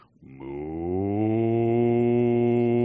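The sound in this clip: A voice imitates a cow's moo: one long, rich, low tone that swells in loudness near the start and then holds steady, with a slight early rise in pitch.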